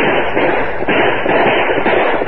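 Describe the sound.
Gunfire from a sheriff's posse shooting at outlaws in a moonlit ambush, heard as a dense, continuous loud crackle of overlapping shots with no pauses or voices.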